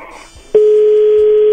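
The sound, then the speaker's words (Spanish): A telephone call tone as the call goes to voicemail: after a brief softer murmur, a single steady mid-pitched tone starts partway through and holds loud and unbroken to the end. “Buzón de voz.”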